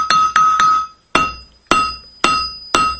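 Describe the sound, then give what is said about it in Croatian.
A hammer strikes an anvil in a workshop: seven loud metallic blows, each ringing with a bright sustained tone. Three come in quick succession, then four more follow at slower, even intervals. “Ljudi svrate u radionicu da čuju zvuk čekića, a iz njegove radnje nema dana da se nakovanje ne čuje. Ovo je nakovanje čekić, evo gledam.”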